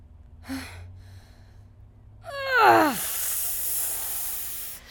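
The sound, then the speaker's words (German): A woman in labour draws a deep breath and pushes out the placenta: a brief breathy sound, then a voiced gasp that slides down in pitch, followed by a long, loud, strained hissing exhale. “einfach nochmal tief einatmen und pressen.”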